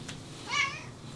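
A female cat gives a single short, mid-pitched meow against quiet background noise.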